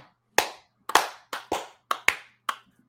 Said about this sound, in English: Can we have some baby face claps for these hardworking gentlemen?